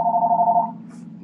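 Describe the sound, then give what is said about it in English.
A telephone rings once, a brief warbling electronic ring that cuts off within a second, leaving a faint low hum. “I'm sorry, the phone is probably somebody saying, okay, Mama's checked out.”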